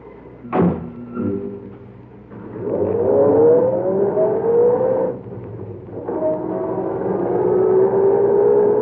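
A car door slams, then the engine revs and pulls away from a service station at night, its pitch rising in two long accelerating surges with a brief dip between them.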